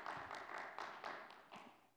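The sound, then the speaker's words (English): Faint, steady single-handed clapping from one person during a church service, a regular series of sharp, light claps evenly spaced across the moment. “I did not pay him to clap. I just want y'all to know. He's really genuinely excited.”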